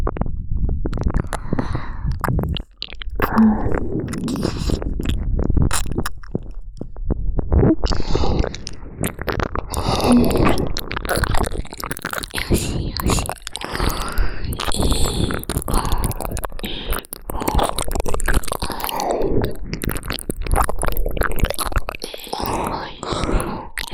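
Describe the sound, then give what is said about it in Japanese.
Ears being licked, with continuous wet mouth sounds: soft squelches, smacks and slurps that run steadily and close up throughout, with no clear speech. “ご主人様のお耳いっぱいペロペロ舐めさせていただきますね。”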